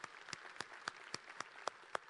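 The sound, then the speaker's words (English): Faint applause in a church is heard as eight sharp, evenly spaced claps in a slow, steady rhythm over a hushed background. “Yes, let's applaud that.”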